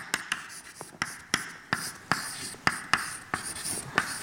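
Writing on a board during a lecture on diffusion, as an equation is written out: many quick, crisp strokes and taps in an uneven rhythm, fairly faint and heard alone without talk.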